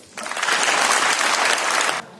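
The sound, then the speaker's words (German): Applause in the European Parliament in Strasbourg for Carney: a loud burst of clapping begins suddenly, holds steady for about two seconds, then stops abruptly. “Ja, es gab viel Applaus für Carney in dem Europäischen Parlament in Straßburg.”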